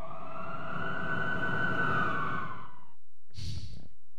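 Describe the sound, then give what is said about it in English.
An ambulance siren in the background: a steady wailing tone that gently sags in pitch over about three seconds, then cuts off, followed by a brief burst of noise. “You can hear the ambient noises of the ambulance in the background on the clip.”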